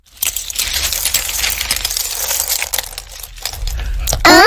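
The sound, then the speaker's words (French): Feathers, pebbles and shells clatter as they are emptied out at a castle: a continuous rattling, clinking jumble of small hard objects lasting about four seconds, ending in a brief louder burst. “Bull et Bob reviennent au château et vident leurs trouvailles.”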